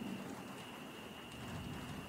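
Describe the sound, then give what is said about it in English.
Heavy rain pours down in a steady, even hiss with no breaks. The sound is faint and unchanging from start to finish, with a thin tone running underneath it. “the rain started pouring heavily”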